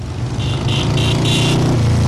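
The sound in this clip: Harley motorcycles rumble at a fall ride along a main street, a steady, loud, low engine drone that holds at an even level throughout.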